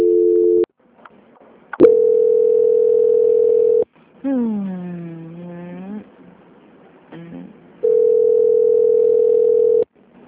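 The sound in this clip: Steady telephone tones play while a call is transferred to a quality-control department. Three flat mid-pitched tones last about two seconds each, the first cut short, with a brief wavering voice-like passage between the second and third.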